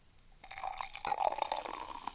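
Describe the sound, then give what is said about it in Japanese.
Water is poured onto a foaming white powder that is turning yellowish, making a steady splashing trickle. It starts after a short quiet moment and grows louder and fuller about halfway through, with no talking. “ちょっと、水をですね、そこに注いでみたいと思います。”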